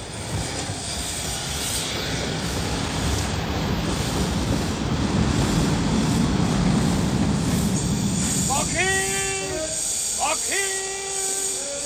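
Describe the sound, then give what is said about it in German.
A train rumbles past in a loud, steady roar that swells through the middle, then high, sharply pitched wheel squeals cut in near the end. “Ja, der Zug.”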